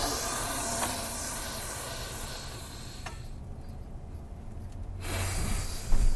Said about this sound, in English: All right, three deep breaths.